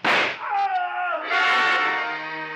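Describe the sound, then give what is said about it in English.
A gunshot fired in the dark, a radio-drama sound effect: one sharp, loud crack at the start, followed by a sustained tonal sound that fades gradually. “I didn't want to fire, but I had to, and fast, in the darkness. Aim was next to impossible, but I shot low.”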